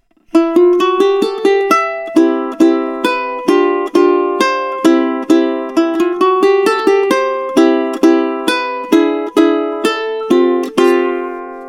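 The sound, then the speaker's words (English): A ukulele song is played with no depth, melody and accompaniment at one even level: many plucked notes in a steady flowing rhythm, each attack fairly alike in loudness, with bright ringing strings and no voices. “maybe the easiest way to explain this is by playing Hone Akavai without any depth. And that would sound like this.”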